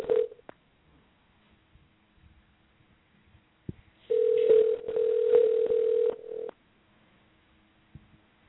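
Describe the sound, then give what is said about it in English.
Telephone line tones while a call is dialed: a brief tone at the start, then a long, steady, mid-pitched tone of about two seconds. Near-silence surrounds it. “we're dialing. Here we go”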